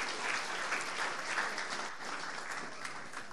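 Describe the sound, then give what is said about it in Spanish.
Applause from a church audience during a service, a dense, steady wash of clapping that holds at an even level throughout, with no talk over it. “Vamos a darle un aplauso a Jesús.”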